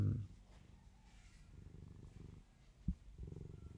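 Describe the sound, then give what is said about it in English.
A cat purrs in a faint, low, continuous rumble that pulses steadily with each breath, heard alone without talk. “sorry guys, like the cat really, really distracts me right now.”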